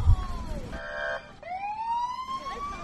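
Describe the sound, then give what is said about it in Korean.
Emergency vehicle sirens sound in a public library parking lot in Virginia: a brief pulsing electronic tone, then a long rising wail, with several siren sweeps overlapping at moderate volume. “여기저기서 들리는 사이렌 소리,”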